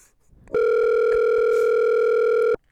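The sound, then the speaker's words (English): A phone call ringing out: one loud, steady electronic tone with bright harmonics that holds for about two seconds, then cuts off abruptly. “Can you call him from your phone?”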